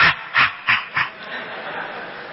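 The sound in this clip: A human voice imitates a dog panting with its mouth open: four quick, rhythmic breathy huffs, then a softer, fading breathy tail.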